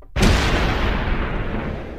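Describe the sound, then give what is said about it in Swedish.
A single cannon shot sounds as a sudden, loud boom with a sharp onset, followed by a long, heavy rumbling tail that barely fades over the next two seconds. “Nu är det dags för kanonkulorna.”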